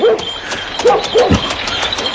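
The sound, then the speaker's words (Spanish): Dogs crying near farms, a few short, mournful whimpering yelps with a tonal whine, rising out of a low, steady background. “No me extraña que los perros aullen de forma tan fúnebre.”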